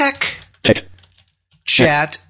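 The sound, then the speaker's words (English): Keys clatter as a status update is typed on a computer keyboard, in a few short bursts of keystrokes with a synthetic voice speaking between them. “So if I type in an update, let's type listen to the second Serotalk”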